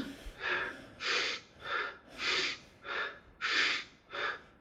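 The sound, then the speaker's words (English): Quick, forceful mouth breaths drawn in and out from the upper chest during a breathing exercise, seven breathy bursts in an even, rapid rhythm, loud and alone with no talk. “just try and breathe just from your upper chest. We'll just take a few quick breaths like that, yeah? In and out through the mouth, just the upper chest.”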